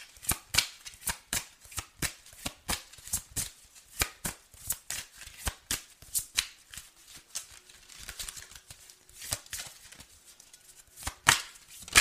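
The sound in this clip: Tarot cards shuffled by hand during a reading, a rapid run of many sharp papery clicks and riffles in uneven bursts, with no talking.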